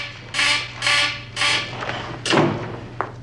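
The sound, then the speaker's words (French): A red alert alarm sounds in a series of loud, pulsing, harmonic blasts over a steady low hum, the final pulses shorter and more clipped. “Qu'est-ce qui se passe C'est l'alerte rouge En quelque sorte.”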